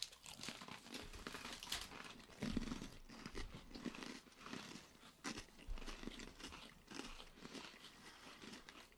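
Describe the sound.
Crunching as a cranberry pomegranate flavored snack is bitten and chewed: many faint, crisp crackles and crunches in an irregular rhythm, with soft crinkly rustling between bites.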